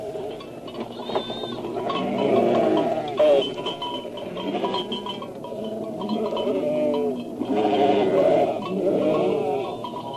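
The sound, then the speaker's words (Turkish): A flock of sheep bleats, with several wavering, overlapping calls that rise and fall over a low background and repeat throughout the ten seconds. “Siz de işitiyor musunuz? Evet, bir koyun sürüsü. Başında bir çoban vardır herhalde.”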